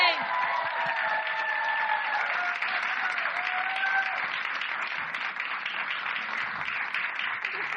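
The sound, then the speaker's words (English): An audience applauds and cheers as a guest is introduced on stage, with loud, continuous clapping throughout, along with whistles and whoops, at an even level. “So please put your hands together for Sam Levine.”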